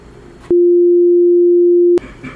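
A loud, steady single-pitched censor beep lasting about a second and a half. It cuts in and out abruptly, with fainter sound on either side.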